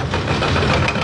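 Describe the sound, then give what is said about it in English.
A skid steer loader's engine drones steadily and loudly as it clears debris around a 500,000-square-foot frozen food warehouse damaged by fire. The rumbling, slightly knocking hum holds even throughout, with no voices. “That's the sound of a skid steer clearing up debris surrounding the 500,000-square-foot warehouse.”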